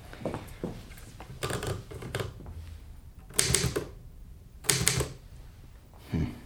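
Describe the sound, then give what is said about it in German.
Typewriter keys clatter in short bursts of rapid mechanical strikes, separated by brief pauses. Some clusters are louder, with sharp clacks, and a final single burst closes the passage. “Die Schreibmaschine.”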